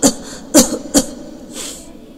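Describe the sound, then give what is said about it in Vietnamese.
A man's coughing fit: three harsh, sharp coughs in quick succession, then a softer, breathier fourth cough trailing off at the end. “Trác Mộc Cường Ba dạo này đã không còn ho nữa, nhưng bây giờ nhất thời cuốn lên lại ho sù sụ.”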